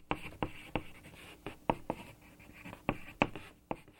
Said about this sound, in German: Tja, und worauf sollte ich schreiben? Ich schrieb auf den Tisch.